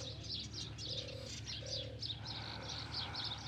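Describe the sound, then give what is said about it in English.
Doves cooing among trees beside the Nile: a few soft, low, hollow coos repeat at a steady pace, mixed with thin, high chirping from other birds over a constant breezy background. “The doves cooing.”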